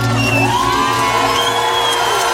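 Loud, continuous cheering from a concert audience, a dense roar of whoops, yells and shouts that stays at full level throughout.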